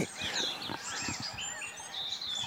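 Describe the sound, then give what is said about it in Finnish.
A song thrush sings at dawn by Lake Hyvelänjärvi. A run of bright, varied, high whistled phrases sounds over a low background murmur. “no niin, laulurastas aloittaa.”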